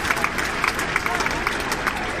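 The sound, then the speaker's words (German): Applause from an audience welcoming five volunteers to the stage for a quiz, a steady, even patter of many hands clapping through the whole clip. “Ja, der Herr Pfarrer, wie schön. Applaus.”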